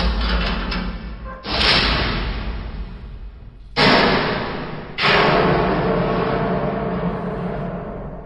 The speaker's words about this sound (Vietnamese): Âm thanh này chắc rằng cửa sắt bên ngoài kia đã bị hạ xuống rồi.